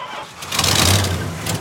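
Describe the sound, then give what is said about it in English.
Truck engine cranking and failing to start, a brief churning mechanical burst that swells loudly and stays rough, with no talk. “I just can't get my truck started.”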